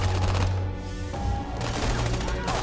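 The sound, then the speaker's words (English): Gunfire from a film shootout in tunnels: dense, continuous bursts of shots packed tightly together over a thick, steady mix, staying loud from start to finish with no clear gaps between rounds. “more to this sequence with him going through the tunnels and shooting everyone up”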